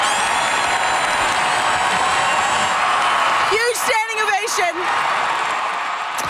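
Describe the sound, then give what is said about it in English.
Crowd cheering in the final seconds of a hockey game that ended in a loss: a dense, continuous roar of many voices that holds loud and steady throughout. “This is the sound of the crowd in the dying seconds of this game.”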